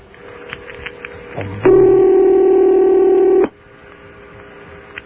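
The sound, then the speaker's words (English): An international telephone ringing tone, a Yugoslavian or Romanian ring, comes down the line as one long, steady buzzing tone lasting about two seconds, with quiet line clicks before it and faint line noise after. “Sounds like a Yugoslavian ring. I've never dialed Yugoslavia, have you? Check that, Romanian.”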